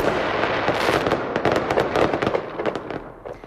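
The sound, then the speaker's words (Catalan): Fireworks crackle and burst in a dense, continuous barrage of many sharp pops and bangs. The display is the castell de focs at the Punta del Miracle, fired by the winning company of an international fireworks contest, and the noise thins out at the end. “La pirotècnia guanyadora del concurs internacional de focs ha estat l'encarregada de fer el castell de focs de la Punta del Miracle.”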